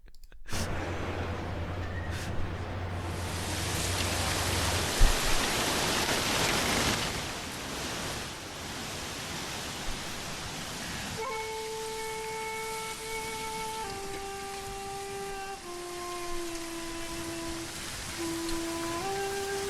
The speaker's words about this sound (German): Was ist das für ein Sound? Regen, der übersteuert.